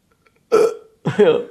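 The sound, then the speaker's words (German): A woman burps once during a casual conversation. The burp is short and voiced, and a second brief vocal sound follows it a moment later. “Hat sie jetzt, glaube ich, hat sie gerade gerülpst?”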